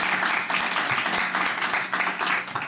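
Applause at a school quiz competition, a fairly quiet patter of many hands with distinct individual claps that rise and dip slightly in a loose rhythm. No talk is heard.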